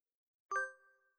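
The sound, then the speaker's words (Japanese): A single bright electronic chime from a phone app marks the end of a screen recording. It has a sharp onset and a clear, bell-like tone that fades smoothly over about half a second, heard alone against silence. “このアプリ録画終了の音は鳴るんだ”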